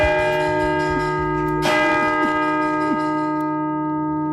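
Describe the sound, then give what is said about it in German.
Church bell ringing at a church in Ulm: sustained, humming bell tones throughout, with one strong strike partway through, heard alone without voices. “Dann folgte unmittelbar das Läuten.”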